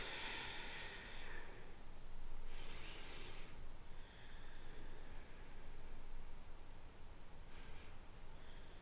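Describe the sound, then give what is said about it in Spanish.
Slow, deep breaths taken during a guided calming exercise: soft, airy inhales and exhales that swell and fade in a few long, unhurried waves. They are quiet, with no talking. “ok, respira, respiremos profundo nosotras ahora. Unas tres respiraciones.”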